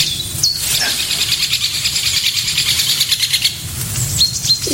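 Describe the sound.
Woodpecker calls, identified as a lesser spotted woodpecker near a dead tree, come as a few short high notes standing out over a steady wash of other birdsong and chirping.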